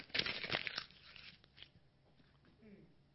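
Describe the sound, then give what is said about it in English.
Paper tearing as a page is ripped out of a Bible for an illustration, with a sharp, loud rip in the first second that fades to faint rustling and quiet. “If my Bible here, if I go through it, I rip out this page right here.”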